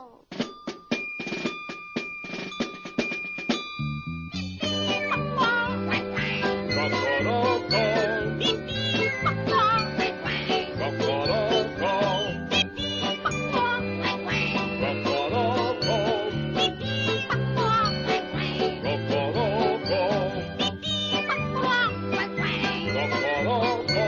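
A chorus of farmyard birds and animals sings a henhouse anthem honoring the rooster, set to steady musical accompaniment. A lighter, tinkling opening gives way to a fuller, sustained sound after about four seconds.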